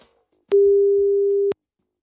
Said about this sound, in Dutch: Ik ga ze even bellen met Sanne van Baren, teamcoördinator aanpak ondermijning.